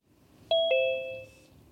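A two-note electronic chime, the second note slightly lower than the first, rings once as a phone call is placed, clear and fairly loud over faint background noise.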